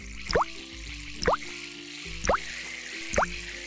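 Water sounds as a child washes her hands: four evenly spaced drops, each a short bloop that rises in pitch, about one per second, over a faint, steady low backdrop.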